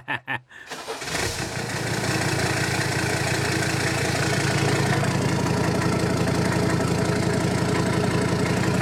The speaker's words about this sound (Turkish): Abi marşa bassana. Tamam. Hadi. Tamam basıyorum.